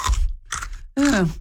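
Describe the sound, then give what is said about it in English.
Crunching from someone biting and chewing a raw mini cucumber: two crisp, crackly bites in quick succession, followed by a short voiced sound. “This is the sound of me eating a mini cucumber right now that I just bought yesterday.”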